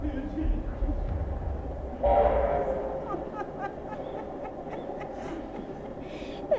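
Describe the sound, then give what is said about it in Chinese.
A train approaches with a low, steady rumble and a rhythmic clatter of wheels. The sound swells suddenly partway through, then settles back into a continuous rolling noise. “火车，火车来了。”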